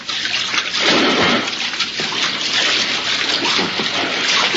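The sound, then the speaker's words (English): Continuous churning and splashing of water as a person swims on the surface of a lagoon, a dense unbroken wash of sound with no pauses. “If you will swim to the center on the surface, we will give you the exact location.”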